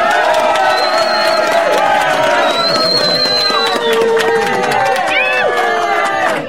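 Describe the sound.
A studio audience of more than a hundred cheering and whooping at a radio quiz show: a loud, sustained crowd roar with shrill shouts and whistles scattered throughout.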